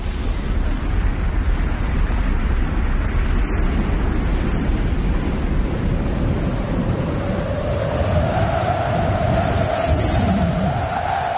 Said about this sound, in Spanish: El basalto de lava calentado a temperaturas de más de 1000 grados deja un reguero de destrucción conforme baja por la ladera y las colinas de Mauna Loa.